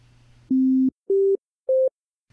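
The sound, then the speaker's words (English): Pure sine-wave tones sound as three short, clean beeps, each held about a third of a second and each higher in pitch than the last, separated by brief silences. “So that nice round-peaked version of a wave we're used to seeing on graphs and so on is called a sine wave, and it sounds like this.”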